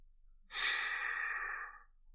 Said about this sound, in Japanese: リラックスして。ゆっくり息を吸って、